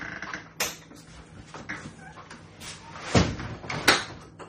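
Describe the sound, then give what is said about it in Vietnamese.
Doors being shut around a house, heard as a few dull knocks and thuds at uneven intervals over a low background hum, with the sharpest pair of bangs close together near the end. “Giờ tôi đóng cửa hết đi nha.”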